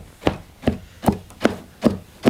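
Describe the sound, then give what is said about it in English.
Big combs beat dark black and red yarn down into a rug on a loom as three women weave flower designs. Six sharp wooden thuds land in a steady, even rhythm, each with a brief bright scrape. “They take these big combs to sort of stab the end of the rug. It's that sound you're hearing right now, to push down the pattern they're making.”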